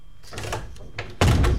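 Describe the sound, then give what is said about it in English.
A door shuts with a sudden, heavy thud that follows a few seconds of softer rustling and movement noises. “hop into the time machine. Okay, shut the door.”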